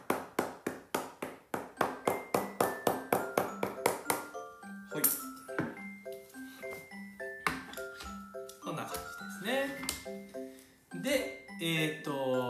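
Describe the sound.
A hammer taps leather while a shoe is hand-welted. A quick, even run of sharp, bright taps with a metallic ring gives way to more scattered strikes.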